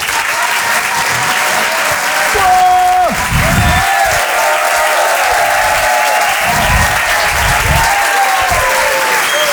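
A comedy club audience in Paris applauds and cheers as a comedian walks on stage. The clapping is loud, dense and steady, and carries on without a break through the whole stretch.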